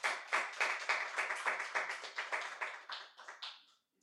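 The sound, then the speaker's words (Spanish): Church audience clapping hands together in praise to God, a run of many sharp claps in a steady, even beat that gradually weakens and fades out near the end. “Vamos a dar palmas al Señor. Let's praise God.”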